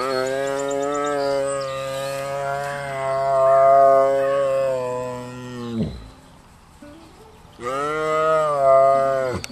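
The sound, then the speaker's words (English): A happy lion at a big cat sanctuary gives a long, deep, steady moaning call lasting several seconds, which drops off at the end, followed by a brief pause and a second loud, sustained call. “That is the sound of a happy lion.”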